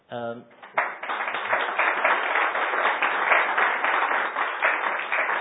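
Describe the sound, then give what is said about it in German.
Audience clapping for a guest sitting among them. A brief voice is heard first, then steady, fairly dense applause continues to the end. “klatscht man, weil sie das Land verlassen muss oder weil sie hier sitzt.”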